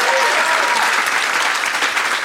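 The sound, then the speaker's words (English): Audience applause at a live comedy show in Austin, a loud and steady wash of many hands clapping together. “applaud if you did not attend Fantastic Fest, but you're here for this. Yay!”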